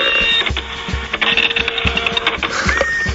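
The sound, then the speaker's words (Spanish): A printer printing texts whirs and chatters mechanically, with several dull thumping strokes at uneven intervals under a steady high-pitched whine. “Acá se están imprimiendo algunos de los textos que van a ser dichos.”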